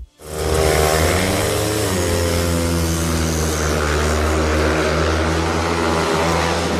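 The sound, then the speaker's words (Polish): Speedway motorcycle engines warming up before a top-league season: a loud, dense, buzzing roar that holds steady in pitch throughout, with no talk. “Kto nie tęsknił za tym odgłosem? Ręka do góry. Kibice Speedwaya, tego na najwyższym ligowym poziomie, zacierają ręce. Motocykle już się grzeją.”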